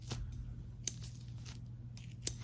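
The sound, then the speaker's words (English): Scissors pull and snip during a quiet mock-surgery role play with latex gloves: faint, sparse crisp clicks, two sharper snips standing out against soft rustling. “Now we're gonna pull and cut”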